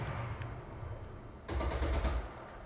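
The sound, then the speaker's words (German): Gunfire in the video game Fortnite: after a stretch of low, quiet background, a sudden burst of rapid shots breaks out and then stops. The sound stays fairly soft overall. “Ich sehe die Gegner nicht, aber auf uns wird geschossen.”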